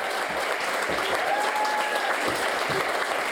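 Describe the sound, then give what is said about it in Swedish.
A theatre audience applauds at the end of a performance of about an hour and three-quarters. Dense, even clapping holds steady throughout. “Efter 1 timme och 45 minuter så är föreställningen slut Och när applåderna till slut har avtagit,”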